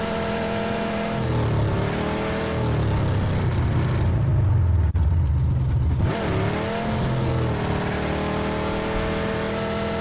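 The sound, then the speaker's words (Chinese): A Lamborghini sports car engine revs in the video game PUBG, a loud continuous roar that shifts in pitch as the revs change and lasts the whole ten seconds without talk. “虽然觉得有点酷炫，但是好吵死了。这兰博基尼啊！”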